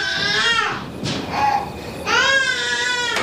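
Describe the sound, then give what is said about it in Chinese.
A baby cries early in the morning in loud, wailing bursts: a long harmonic wail, a shorter whimpering cry, then another long sustained wail, with no talk over it. “姐，姐，你能不能别让他哭了，让人睡觉了。”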